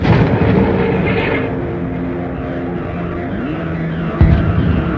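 Artillery gun firing as a radio drama sound effect: a heavy, continuous low rumble of blasts throughout, with a sharper booming hit near the end.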